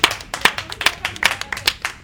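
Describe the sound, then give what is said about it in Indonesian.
Audience applause after speakers are introduced at a digital media panel: sparse, separate claps with clear gaps between them, arriving in an uneven rhythm at moderate loudness rather than as a dense wash. “Tepuk tangan buat pembicaraan ini.”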